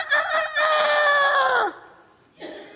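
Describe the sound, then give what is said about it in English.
A rooster crows once with a loud, strained, strongly harmonic call held for over a second that drops in pitch at the end, then a short softer call begins after a brief gap. “And when he hears that rooster,”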